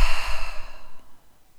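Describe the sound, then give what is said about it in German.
A deep, slow breath taken in through the nose and let out through the mouth, heard as a loud, breathy rush that fades gradually into near silence. “Atme einmal tief durch die Nase ein und durch den Mund aus.”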